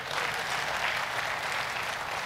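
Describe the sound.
Students clapping in a programming class, a soft, even, unbroken rain of many hands that stays level for just over two seconds with no voices over it.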